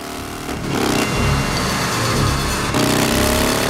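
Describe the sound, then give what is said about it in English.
A motorcycle and a truck rev their engines loudly, a dense, rough, continuous roar with shifting tones. It fills the whole clip without a break. “They rev their engines, both looking deadly serious.”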